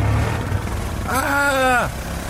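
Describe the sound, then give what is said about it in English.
Buzzy engine-like whine from a NASA moon buggy racing across a crater, a steady harmonic tone that holds for under a second, bends slightly, then drops away, over a continuous low rumble. “I'm gonna beat you, Harry. Come on, then. Hey, watch out. We're on the edge of the crater here. I'm gonna win, Harry. This NASA moon buggy is super speedy.”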